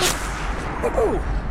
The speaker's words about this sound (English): Leaning on the ledge, Chutsky opens up on a building across the street, then ducks return fire.